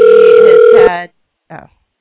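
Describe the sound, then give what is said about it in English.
A telephone ring heard while calling a guest back: one loud, steady electronic ring tone that holds for just under a second, then fades and cuts off. A short, fainter burst of sound follows. “that's going to be good and loud. I'm sure you can hear the phone ring.”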